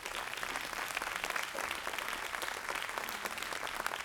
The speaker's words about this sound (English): Can you go, come on, Give God a big hand clap.